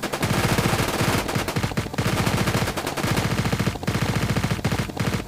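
Loud machine-gun fire rattles out in several sustained rapid bursts separated by brief gaps, with no voices over it.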